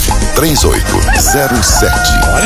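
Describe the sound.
A rooster crows and clucks in a few short, arching calls inside a radio station's time-signal jingle, set against a loud, busy bed of music and voices.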